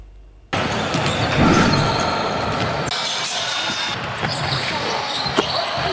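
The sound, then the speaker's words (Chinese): A basketball bounces inside the newly built indoor basketball hall of a waterfront sports park in Cangnan County, set within a dense, steady wash of hall noise. “球赛不过瘾，还可以选择自己上场哦。这里是苍南县新建成投用的滨水体育公园气魔篮球馆。”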